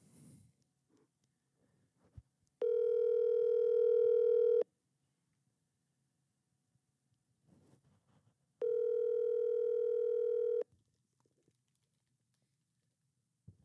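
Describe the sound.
Ringback tone of an outgoing telephone call: two steady, buzzing tones of about two seconds each, separated by several seconds of near-silence with faint scattered clicks.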